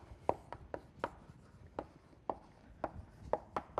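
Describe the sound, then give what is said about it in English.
Writing on a board during a biochemistry lecture: many short, crisp taps and scratches of strokes in an uneven rhythm, faint and with no talk over them. “Let's write that.”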